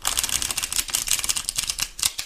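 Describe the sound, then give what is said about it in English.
Cards are pulled from a secondary tarot deck in a quick run of many crisp flicks and snaps with an uneven rhythm. “now I'm using the secondary deck to pull the two final cards.”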